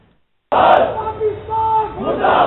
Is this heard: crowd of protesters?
yes